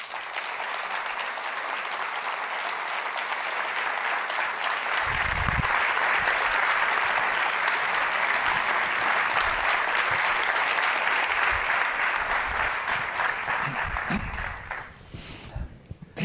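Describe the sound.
Sustained audience applause welcoming a guest essayist and poet onto a stage, dense and even for about fourteen seconds before thinning out and fading at the end.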